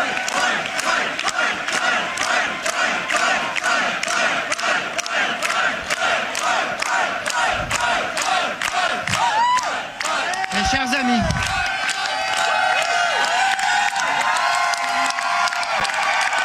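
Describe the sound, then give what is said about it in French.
A crowd cheers loudly to welcome PSPP, with steady rhythmic clapping under a chorus of shouts and whoops that continues for the whole stretch, and a few voices rise above the din. “C'est les gens l'ont bien accueilli hier, PSPP. Oui, t'as-tu l'extrait de ça?”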